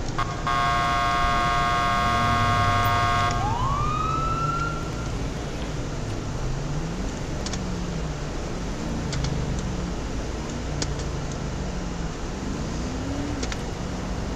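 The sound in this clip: In a police video game, a car horn blares steadily, then a siren sweeps sharply upward. A lower wavering siren wail continues throughout under a constant hum.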